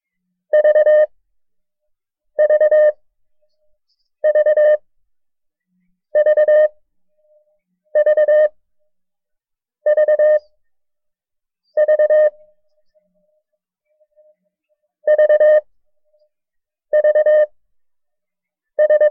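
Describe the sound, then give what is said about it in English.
The Morse code letter V, three short beeps and one long beep, is sent ten times as a clear mid-pitched tone. The groups come at a steady pace, with a longer pause after the seventh and only silence between them. “I will send a series of the character, dit, dit, dit, da. Every time you hear the code character, say the letter V just as fast as you can.”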